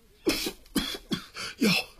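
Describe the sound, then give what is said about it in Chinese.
Four weak, hoarse coughs of a sickly man, voiced by a storyteller imitating the sound, spaced unevenly over two seconds with short quiet gaps between them. “李阿贵有气无力的咳嗽了一阵”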